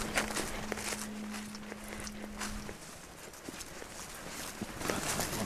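Footsteps walk steadily through a forest on a deer hunt, with many crunching steps at an even pace. A low steady hum runs under the first half, and no one speaks.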